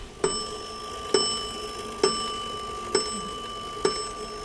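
A cuckoo clock strikes noon with five evenly spaced, bell-like chimes about a second apart. Each strike is crisp and ringing, with a bright tone that lingers until the next.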